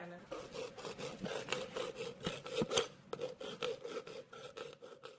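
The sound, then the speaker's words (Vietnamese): Rapid hammer taps on a chisel as silver is hand-engraved at a family workshop on a home porch in a village in Khanh Hoa, Vietnam: many quick, dense metallic strikes and rasping scrapes in a steady, busy rhythm with no talk. “Đó là tiếng chạm khắc bạc”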